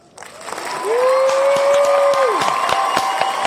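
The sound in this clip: An applause sound effect of a crowd clapping and cheering swells in and stays loud, with scattered sharp claps and a whistle-like tone that rises, holds steady, then drops away.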